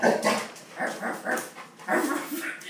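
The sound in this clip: Excited dog whimpering and yipping, a series of short, high, whiny bursts in uneven clusters, fairly loud with little pause between them.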